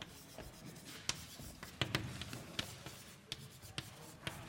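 Writing on a board during a mathematics lecture. Quiet scratchy strokes are broken by sharp taps at irregular intervals, with no talk over them.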